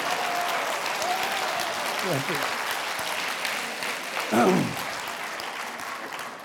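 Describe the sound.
Sustained applause from a lecture audience at a Collège de France course, dense and steady throughout, with brief voices rising over the clapping.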